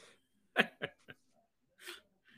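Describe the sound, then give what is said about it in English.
Hiccups from a person: a few short, sharp bursts, irregularly spaced and separated by near silence, fairly quiet. “I'm battling a case of the hiccups right as the light turns red.”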